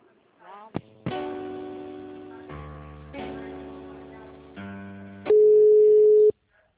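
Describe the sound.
After a dropped call, a telephone line plays several sustained electronic tones that change in steps. A louder, steady single tone then holds for about a second before it cuts off.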